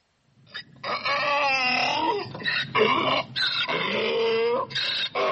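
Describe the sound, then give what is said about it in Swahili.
A donkey brays loudly on its own, a harsh, strongly tonal call broken into a series of rapid see-sawing heaves whose pitch wavers up and down, with no pauses of silence after it begins. “huyo lazima ni punda. Hakika umepata.”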